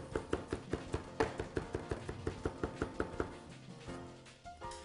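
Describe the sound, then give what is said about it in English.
A knife chops and minces two garlic cloves in a fast, even run of many crisp taps, quiet overall, before breaking off into softer, irregular sounds near the end. “I am going to chop up 2 cloves of garlic. I mash it, chop it, mince it.”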